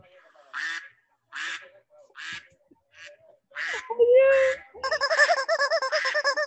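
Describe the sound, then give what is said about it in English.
Short nasal quacks from a duckling repeat at a steady pace, followed by a person's voice and a quick run of pulsed, bouncy calls at the end. “Hello, Mr. Duckling.”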